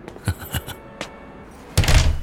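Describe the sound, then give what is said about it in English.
A door closes in a narrated story scene: a few soft knocking thumps, then a heavier, louder thud as it shuts, followed by a short rumbling tail. “The door closed, and Malcolm wasn't even sure what he'd said to get the people on the street to let him go free.”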